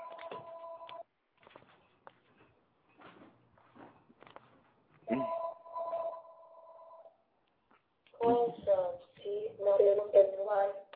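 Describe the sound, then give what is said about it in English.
A talking caller ID announcing an incoming phone call: two stretches of warbling two-tone ringing with quiet clicks between, then a synthetic voice speaking. “Yeah, it's my fucking talking caller ID. I'm sorry about that.”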